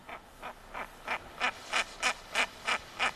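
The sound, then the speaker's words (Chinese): A female bird calls in a series of about ten evenly spaced, quack-like notes. The calls grow gradually louder in a steady rhythm, alone against faint background hiss. “那我们再听另外一款雌鸟的叫声，我们来感觉一下，”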